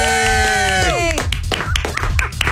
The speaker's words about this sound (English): you got a whole cheering squad behind you, it sounds like, right?